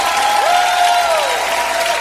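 Applause fills a church worship service: a dense, steady clatter of many hands clapping throughout, with a held tone gliding in over the middle.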